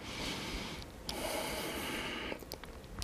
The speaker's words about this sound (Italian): quando faccio questo lavoro c'è sempre la respirazione, che sarà espiro, inspiro, espiro. Inspiro.